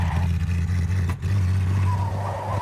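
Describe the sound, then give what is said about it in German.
Car engine droning steadily as the car pulls away, a low humming tone that dips briefly midway and then resumes at full level. “Alfred C. sich von der Preisverleihungsfeier ab und lässt sich zum Geflügelhof fahren”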